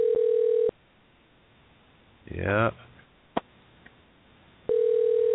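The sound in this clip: Ringback tone of an outgoing telephone call ringing out: a steady electronic tone at the start, a long silent gap broken by a short rustling noise and a click, then the same tone returns at the end.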